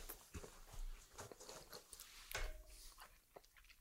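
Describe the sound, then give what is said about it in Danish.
Heel slices of bread are munched at a wine tasting, with soft, irregular crunching and chewing sounds, faint and mostly alone. “Nu er jeg i gang med at gumle endeskiver.”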